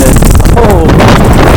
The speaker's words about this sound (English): okay. That wind is a little too strong. Let's try this other location.